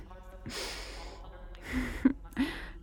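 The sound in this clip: A woman takes a deep breath, one long airy inhale followed by two shorter, sharper breathy bursts, soft and intimate with no talk.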